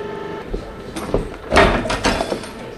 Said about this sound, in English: he's swinging this heavy arm over and applying a 2-ton pressure to this knife, which will then cut out these shapes for buckling